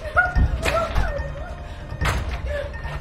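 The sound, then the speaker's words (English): Someone tries a locked emergency exit door, making a few dull thuds and knocks as it is pushed and fails to open. “She tries emergency exit. It's locked.”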